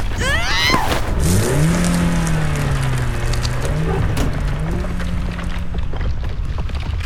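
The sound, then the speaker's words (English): A car engine drives along without pause, its note sweeping upward early on, then holding a steady, slightly wavering pitch over a broad rushing noise. “Get us out of here! We're driving in on your left!”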